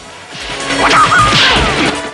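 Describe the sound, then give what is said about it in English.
A wooden stave shatters as a student braced in a doorway with it is knocked back. A single loud, sharp crash of splintering wood is followed by a rough, noisy tail that lingers before ending. “A student holds himself in a doorway using a stave. It is shattered and he falls back.”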